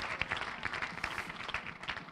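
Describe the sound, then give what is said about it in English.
A church audience claps hands to the Lord during a worship service, with a fairly faint, steady patter of many quick, uneven claps and no speech. “In the name of Jesus, clap your hands to the Lord, and you may be seated.”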